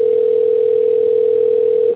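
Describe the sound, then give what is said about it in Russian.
A telephone tone sounds while a call connects to an operator. It is a single steady mid-pitched tone held for about two seconds before cutting off sharply. “Номер абонента не отвечает. Соединяюсь с оператором.”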